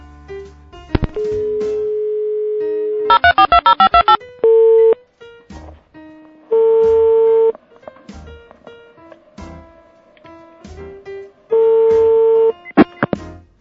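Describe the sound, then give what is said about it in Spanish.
A telephone call is dialed from a radio production room: a steady dial tone, then a quick run of keypad beeps, followed by several long, evenly pitched ringing tones separated by pauses. “Y ya mismo desde nuestra sala de producción vamos a realizar la llamada telefónica.”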